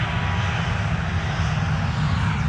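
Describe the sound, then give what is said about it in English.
An American Airlines Boeing 737 airliner's jet engines roar as it takes off at Austin-Bergstrom Airport, heard in the background as a steady, continuous rumbling roar that holds level throughout. “it's an American 737 in the background, by the way, taking off”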